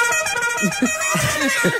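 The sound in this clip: A car horn honks in a steady, sustained blare lasting about two seconds, its buzzy tone holding level throughout.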